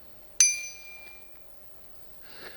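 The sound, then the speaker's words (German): A BBB 120 bicycle bell gives a single bright, loud metallic ding that rings on and gradually fades, followed later by a faint, brief rustle. “Die Fahrradglocke BBB 120, die laut Händlerbeschreibung ein lautes und deutliches Pling macht.”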